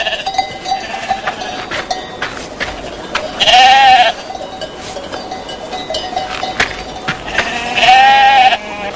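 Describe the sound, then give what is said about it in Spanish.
A large flock of sheep bleats beside a goat tied to a holm oak, with two loud, wavering bleats standing out over a steady background of livestock bells ringing and softer animal noise. “una cabra atada a una encina junto a un gran rebaño de ovejas”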